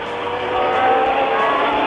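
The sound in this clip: High-pitched racing car engines wailing as cars battle side by side through a fast, long-radius curve during an overtake, loud and continuous, swelling slightly after the opening moment.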